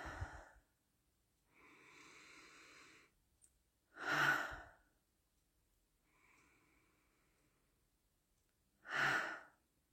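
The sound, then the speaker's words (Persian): Slow, deep breaths taken during a guided meditation, a few long airy inhales and exhales, some louder and fuller, others faint, with pauses between them and no talking. “3 تا نفس بکشیم.”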